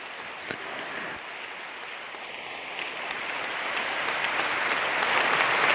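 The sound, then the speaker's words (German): Dense applause from an audience at a talk with a question session. The clapping is steady and rises gradually in loudness over several seconds, with no voices. “vorher einmal einen großen Applaus für Q und Maya.”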